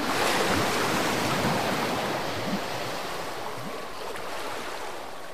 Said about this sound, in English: Watch out for that wave!